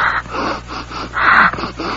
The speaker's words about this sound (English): What are you doing? I'm checking my breath.